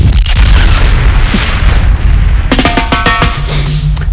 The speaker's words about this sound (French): Ah, c'est dingue, il y a un missile, je crois, qui est passé, oui, là.